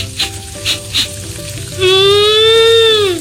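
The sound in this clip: Tofu and tempe frying in a pan give a steady sizzling hiss with a few faint taps early on. A loud sustained tone joins near the end.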